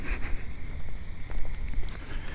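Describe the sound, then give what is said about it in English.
Footsteps of people walking around a neighborhood on trash night at about 2:20 a.m., soft irregular steps beneath a loud, steady buzzing chorus of cicadas. “And we're walking around in my neighborhood for no reason.”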